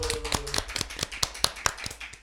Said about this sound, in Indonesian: Yeay, loh tepuk tangan dulu dong.